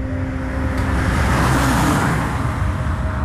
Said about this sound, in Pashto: موټر تیر سو